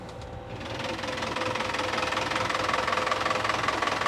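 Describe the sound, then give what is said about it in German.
A 100-horsepower four-cylinder Yanmar boat engine with a fixed propeller runs steadily, a continuous even clatter of fast rhythmic pulses at a constant moderate level, with no talk. “Was für eine Maschine ist das hier? Das ist ein 100 PS Vierzylinder Yanmar. Der schiebt das Ding mit einem festen Propeller richtig gut weg.”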